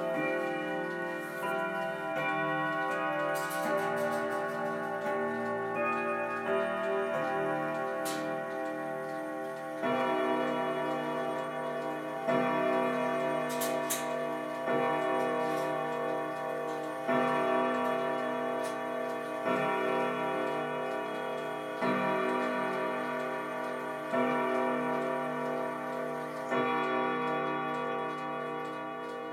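Grandfather clock ticking steadily while ringing chime tones sound out in a series of struck notes that sustain and overlap, fairly loud and without talk.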